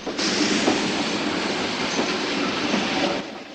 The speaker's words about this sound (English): A second train approaches from the opposite direction.